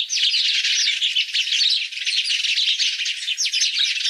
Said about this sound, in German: Und wir hören mal rein in den, was hat der Haussperling zu sagen.